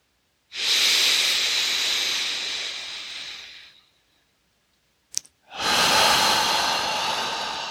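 Forceful exhalations during a guided relaxation breathing exercise: two long, breathy rushes of air, each a few seconds, separated by a pause with a single short click, then a second steady push of breath.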